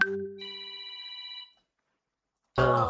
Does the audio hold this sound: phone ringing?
yes